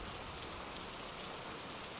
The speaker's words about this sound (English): the rain intensifies even further. To the point where visibility is affected.